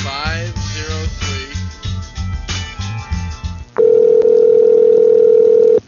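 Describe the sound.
A telephone dial tone while calling someone: a loud, steady, unbroken tone starts abruptly after a short stretch of other sound and holds to the end.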